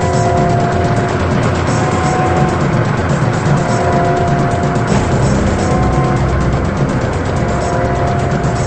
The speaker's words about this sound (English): The man in the old blue car is on the prowl again. He drives down a dark, rain-soaked street at night.